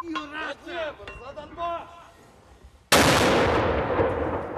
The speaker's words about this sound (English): Inside the town, Ukrainian troops lobbing mortars and obscenities.